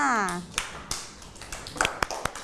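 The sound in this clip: Children in a classroom clap for a classmate with a few scattered, uneven claps after a teacher's voice briefly speaks at the start.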